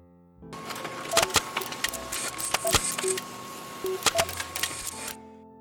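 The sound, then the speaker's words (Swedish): A printer prints out a story, starting abruptly with a mechanical whir. Sharp clicks and short tonal chirps punctuate the whir before it stops near the end. “Jag skriver ut sagan till er här.”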